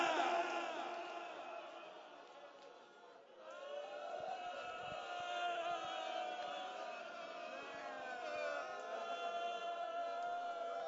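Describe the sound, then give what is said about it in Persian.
Screaming of unseen origin: loud, sustained high-pitched cries overlapping one another throughout, dipping briefly before swelling again and holding steady. “یه جیغی میاد، من نمیدونم کجاست”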